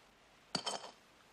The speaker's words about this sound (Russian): Вылив содержимое, ставит бутылку на бетонное основание.